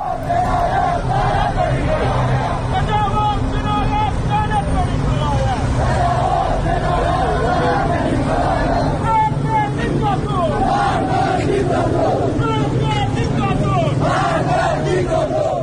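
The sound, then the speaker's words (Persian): Protest crowd filling the streets of Iranshahr, Iran, a dense, loud roar of many voices shouting and chanting together, sustained without a break from start to finish. “این صدای مردم ایران شهر بود.”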